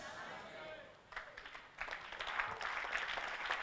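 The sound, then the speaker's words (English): Sparse clapping from a church audience during a sermon on hope and faith, starting after a spoken phrase and thickening into a fuller patter, with talk running through it. “Her clapping is very low.”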